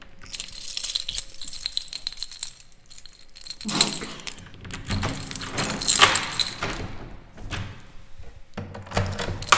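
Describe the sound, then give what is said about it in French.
Keys jangle and clink while a door with several locks is locked at a radio station's premises: many irregular metallic rattles with a few louder bursts, and no talk. “C'est fermé. Il y a beaucoup de verrous parce qu'on a beaucoup de choses à cacher.”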